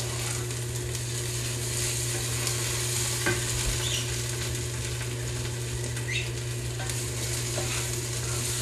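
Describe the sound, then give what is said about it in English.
Tomato frying in oil in a pan is stirred: a steady, even sizzle runs throughout, broken by a few faint scrapes and clicks of the utensil against the pan, with a low constant hum beneath and no talk. “make sure you keep stirring that tomato. We don't want it we want it warm, and we want it to absorb that oil, but we don't want it to burn to the bottom of the pan.”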